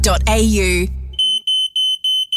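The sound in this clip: A smoke alarm beeps in a rapid run of short, shrill, high-pitched electronic chirps right after a man's voice speaks.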